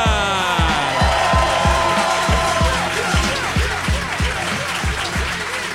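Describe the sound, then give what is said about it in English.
A live audience applauds and cheers to welcome a comedian onto the stage, with steady dense clapping over a loud, regular thumping beat. “Ladies and gentlemen, please put your hands together. Welcome to the stage, Mr. Ramesh Ranganathan.”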